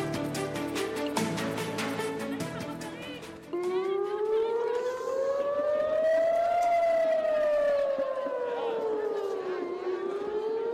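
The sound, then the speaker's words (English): Air raid sirens sound across Tel Aviv during a rocket threat, a loud, long wailing tone that slowly climbs, then falls, then begins to rise again. “That's the sound of air raid sirens going off in Tel Aviv Thursday, a stark reminder, if any was needed, that Hamas still has rockets to spare to threaten Israeli cities and towns.”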